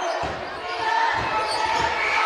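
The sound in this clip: Basketball bouncing on a court during a game, a run of dull low thuds in an uneven rhythm, with voices heard around them.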